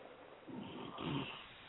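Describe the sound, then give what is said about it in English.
Faint snoring: two soft, low, rasping breaths rise briefly out of a quiet background. “Are you snoring?”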